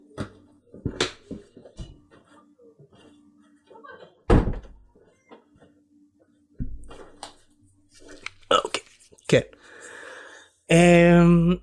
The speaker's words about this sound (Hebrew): שנייה, אני צריך לסגור את הדלת כי יש בלאגן בבית.